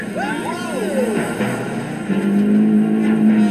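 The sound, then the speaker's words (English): Renault car driving fast on a test track, its engine rising into a loud steady drone beneath a man's talking. “So, can Mrs. May beat that in the Renault?”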